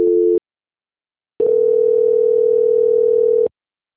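Telephone line tone while a bank call is transferred to the quality-control department: one short beep, a second of silence, then a steady, loud tone lasting about two seconds before cutting off cleanly.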